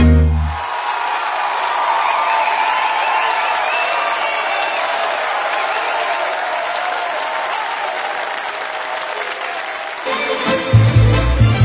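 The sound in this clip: Audience applause rises right after a live song at a concert, a loud, dense and steady wash of clapping that holds for about ten seconds before it changes near the end.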